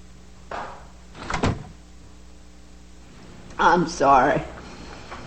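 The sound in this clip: A door closes as someone walks out and leaves, a short muffled thump after a softer shuffle, then quiet before a brief voice sounds.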